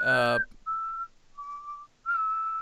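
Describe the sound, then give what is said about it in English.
A man whistling a tune to himself while sitting in the back seat of a car gives three clear, sustained whistled notes, the middle one slightly lower, after a brief louder burst of another sound. “He's quite the whistler.”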